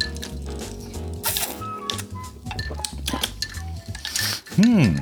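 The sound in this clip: A teaspoon clinks lightly against a glass in several quick metallic taps, mixed with people talking.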